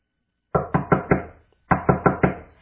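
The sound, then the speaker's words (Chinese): Knocking on a door: two groups of four sharp, loud raps separated by a brief pause, each knock decaying quickly. “蒙恩兴奋地敲了敲门”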